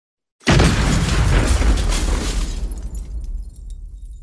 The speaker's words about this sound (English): And it was so shocking when that explosion went off